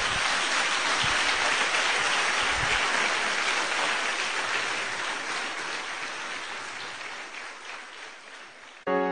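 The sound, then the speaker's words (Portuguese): A church audience applauds in praise: dense, rain-like clapping holds steady and loud, then slowly tapers off toward the end. “Vamos aplaudir o nosso Deus.”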